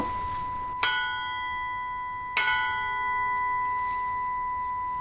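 A welded steel tube is struck twice. Each sharp metallic hit blooms into a bright, bell-like tone that rings on steadily and barely fades before the next strike and to the end.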